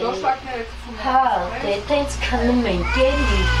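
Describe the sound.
A cat meows repeatedly in a run-down, drafty house where it is kept for rats, the meows mixing with people talking.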